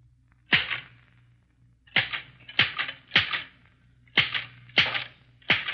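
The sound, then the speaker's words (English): Slow typewriter keystrokes typed at eight words a minute by a mother holding a pencil between her teeth: seven sharp, isolated clacks at uneven intervals with quiet gaps between them. “Is your ear having difficulty in identifying the strange sound you hear? It comes from Wichita, Kansas. 8 words a minute, typed by a mother of 2 children by holding a pencil between her teeth.”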